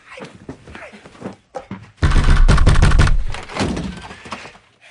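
A door is opened with a heavy, loud thunk and a rattle that lasts about a second, with softer faint knocks and shuffles before it.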